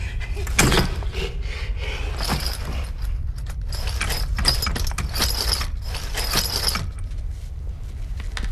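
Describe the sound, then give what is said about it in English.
An old chest is broken open with an irregular run of metallic clanks, knocks and jingling rattles lasting several seconds, fairly loud and uneven. “Slee breaks open the chest to reveal a tray with a few gold coins on it”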